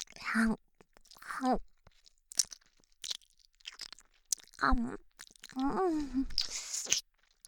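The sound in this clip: Someone chewing a sticky, unpleasant mouthful, with wet crunching bites broken up by short voiced groans and murmurs. The sounds come in irregular bursts with quiet gaps between them.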